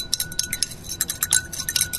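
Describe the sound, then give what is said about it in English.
Light clinking of salt being stirred to dissolve it in an experimental solution, many quick, bright taps and faint scrapes in an irregular stream with no talk. “Okay, now you're stirring. Stirring the salt to dissolve it all.”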